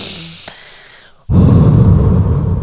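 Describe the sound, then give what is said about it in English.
A deep breath is taken as a calming exercise: after a quiet stretch, a sudden loud, rushing breath begins partway through and holds strongly to the end. “I want you to take a deep breath like this.”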